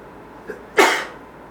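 A single sneeze during an Islamic religious lesson, a faint catch of breath and then one sharp, forceful burst that fades quickly over low background hum.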